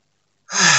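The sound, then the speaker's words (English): A single deep, sharp inhalation bursts in after silence and stays strong and breathy to the end. “Okay, got a good breath there.”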